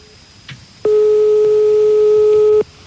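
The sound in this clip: A telephone call is dialed: a faint click, then a single steady, pure ringing tone that lasts nearly two seconds before cutting off.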